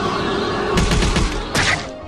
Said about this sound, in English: Faux Ewok used cyclone.